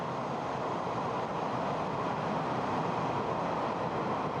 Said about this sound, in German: Weiter unterwegs nun wieder Richtung Norden. Mit der Bahn.